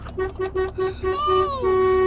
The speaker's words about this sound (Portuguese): E o outro continua buzinando ainda aqui.